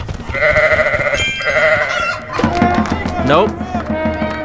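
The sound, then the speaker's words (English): Two wavering bleats from a sheep in a video game, then talking. “I'm gonna get a goat. Or a sheep. I'm gonna get a sheep.”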